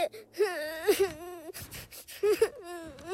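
A young child crying after confessing to a lie: high, wavering whimpers and wails in several sobbing bursts with short breathy gaps, fairly quiet and without other voices.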